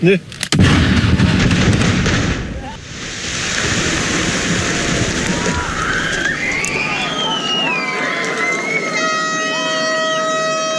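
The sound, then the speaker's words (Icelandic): A single loud explosion marks the first blast of the Eysturoy sub-sea tunnel under construction in the Faroe Islands, Strendur side, at a ceremony. A long roaring rumble follows, then wavering tones and several steady sustained tones near the end. “Fyrsta sprengingin í Austureyjagöngunum í Færeyjum, strandamegin, hátíðlega athöfn og mikill fögnuður.”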